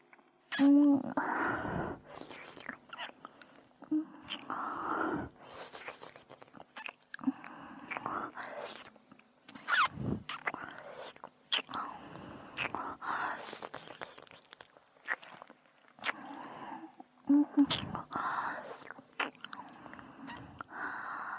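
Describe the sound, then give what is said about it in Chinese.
Close, wet mouth sounds of ear licking in ASMR style, with soft smacking and slurping in many short bursts over about twenty seconds, mixed with quiet breathy whispering. “好了，这边耳朵也舔干净了，就是另一只了。”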